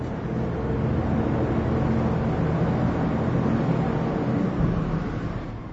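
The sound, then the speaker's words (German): Steady, droning roar of a ventilation system pushing fresh air into a salt mine. The broad, even rush stays constant and loud throughout, with no voices. “Dröhnend schafft die Bewetterungsanlage frische Luft ins Bergwerk.”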